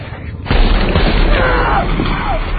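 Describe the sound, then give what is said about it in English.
A gunshot: one sudden, loud blast cracks out early, then leaves a thick, rumbling wash of noise that holds for the rest of the moment. “What the hell are you doing? You son of a bitch! You shot me!”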